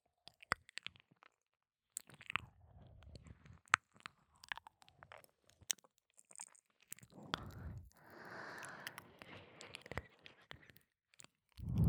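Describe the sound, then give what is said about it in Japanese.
Crunchy chewing of a bite-sized snack, heard as faint, irregular crunches and soft mouth sounds with quiet gaps between bites. “一口で食べきれるから、すっごく食べやすくて、また食べちゃおう。”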